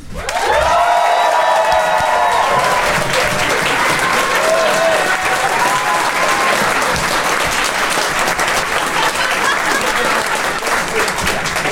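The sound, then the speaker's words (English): Loud, sustained applause from an audience, with a few whoops or shouts rising over the clapping near the start, then steady dense clapping continuing evenly for over ten seconds. “I'd like you to applaud now.”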